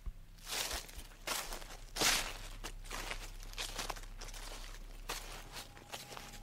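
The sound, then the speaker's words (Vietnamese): Footsteps on dry leaves in a garden at night: a series of soft, uneven rustling crunches, each step a brief papery burst, faint and spaced irregularly across the stretch with a low steady hum beneath. “Cậu Tẩy đang nằm gác chân lên cửa sổ ngáy phè phè, bỗng từ sau vườn truyền vào tiếng chân đi trên lá khô loạt soạt.”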